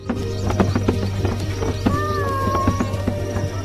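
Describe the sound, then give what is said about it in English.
Giraffes galloping towards trees in Uganda after being released from a truck: many rapid, uneven hoof thuds over a steady low rumble, with a brief high tone partway through. “Giraffe after giraffe runs off into a new life. Another truckload of giraffes gallop towards the trees.”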